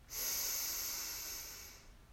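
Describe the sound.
A single long breath out during a guided breathing exercise, a steady, airy hiss lasting under two seconds that slowly fades.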